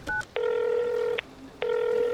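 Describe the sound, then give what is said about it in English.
Telephone keypad dialing tones as a call is placed: a short tone, then two long, steady tones with a pause between them, with no talk. “Excuse me one second. I've just got to make a quick phone call.”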